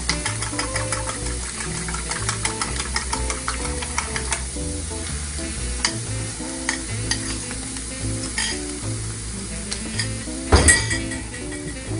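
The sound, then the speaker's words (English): Whisked eggs with salt and black pepper sizzle steadily in a hot pan as they are scrambled with a fork. Frequent scraping and stirring run throughout, with light clinks of utensil on pan and one sharper clink near the end. “So now that my eggs are in there, I'm going to add just a touch of salt, not too much, a little bit of black pepper. I'm just going to scramble these up”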